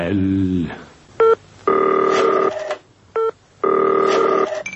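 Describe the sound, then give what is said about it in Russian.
Telephone dialing tones and ringing in a telephone-themed sound composition: a voice briefly at the start, then two short tone bursts alternating with two long sustained electronic tones, loud and clear. “Я телефонний наркоман. Это уже телефонная композиция моего акустического соавтора, режиссера Марины Смирновой-Фрэтси.”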